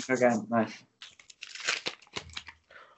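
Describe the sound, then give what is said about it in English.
Tearing and crinkling of a McDonald's Pokemon card pack as it is opened, a run of noisy, uneven rips and crackles after a brief vocal sound at the start. “So these are Pokemon cards, but they got all the Pokemon like stuff on them. But I'm going to open them. Here we go.”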